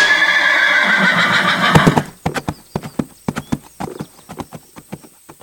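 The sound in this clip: A horse ridden out toward a tower whinnies loudly for about two seconds, then its hooves clip-clop in a steady, even rhythm of many sharp knocks that continues alone to the end.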